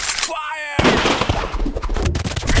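Tranquilizer rifles firing during the capture of a running beast: a sharp, loud crack followed by a dense stretch of noisy bursts and another short, sharp hit near the end.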